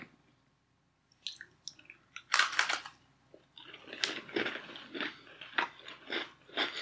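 Someone bites into a crunchy maple-flavoured snack and chews it. After about a second of quiet, a few sharp crunching bites are followed by many softer, irregular chewing crunches.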